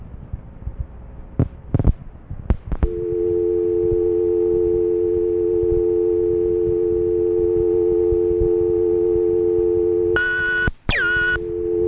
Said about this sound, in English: Time allotted for you to dial has been exceeded. Please hang up and dial again.